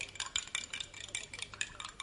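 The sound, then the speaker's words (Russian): Spoons clink against cups while sugar is stirred into drinks at a table. Many quick, bright metallic taps follow in a fast, uneven rhythm, with no voices. “А зачем же вы так звените ложками, а? Чтоб сахар лучше размешать.”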